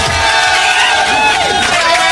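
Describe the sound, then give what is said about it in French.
Studio crowd cheering and applauding in a standing ovation: a loud, continuous roar of clapping and shouting voices that stays dense and steady from start to end. “Je crois que là on peut lui faire une standing ovation. Il est là, il réclame des applaudissements.”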